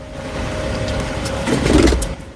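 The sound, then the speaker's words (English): Car engine hum as a vehicle drives slowly down a wide street, turns past a parked van, then slows; a steady low rumble swells briefly before easing off toward the end. “Art drives Simon slowly down the wide street. Art turns the car to his right, passing the parked van that Simon's father had driven. Art slows the car.”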